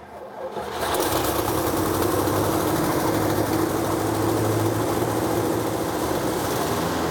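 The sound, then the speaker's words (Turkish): A small carburetor engine starts after maintenance and runs poorly: a quiet opening, then it catches within the first second and settles into a steady, buzzy, rattling idle that holds to the end. “Çalışıyor. Ama iyi çalışmıyor. Pekala. Tamam, şimdi çalışıyor. Karbüratörde sızıntı yok.”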